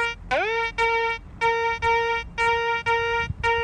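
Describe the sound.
A metal detector tone sounds over a gold ring laid out for a demonstration. It is a buzzy, mid-pitched tone rich in overtones that opens with a quick upward sweep, then pulses in repeated beeps with short gaps between them.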